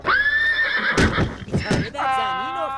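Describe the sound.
A horse neighs loudly with a high, quavering whinny. A few heavy thuds follow, then another wavering, harmonic cry.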